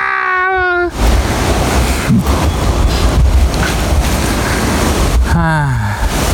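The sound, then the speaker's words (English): Wind rushes and buffets across the microphone in a loud, steady roar that masks everything else, with voices speaking briefly at the start and again near the end. “And the wind. Wind feels good.”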